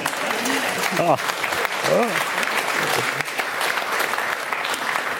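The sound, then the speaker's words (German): Audience applause fills the full five seconds as dense, steady clapping, with a few voices briefly rising above it. “Wow. Ein Applaus.”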